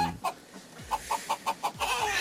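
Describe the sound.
Hens clucking in a quick series of short, mid-pitched clucks. About half a dozen fall at an even pace in the middle, and a steadier rustle of clucking builds toward the end.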